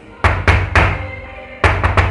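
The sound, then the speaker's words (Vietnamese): Knocking on a bathroom door: three heavy knocks at an even pace, a short pause, then a faster series of several more knocks. They are loud and stand alone. “Nãy giờ im lặng, đột nhiên lại có tiếng gõ cửa, khiến cho Duy Minh”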